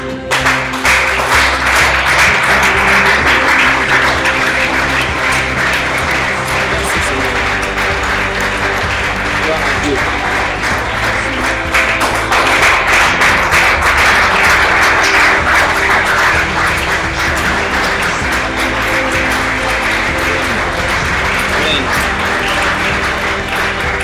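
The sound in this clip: Church audience applauding: loud, continuous dense clapping that holds steady throughout, with voices mixed in.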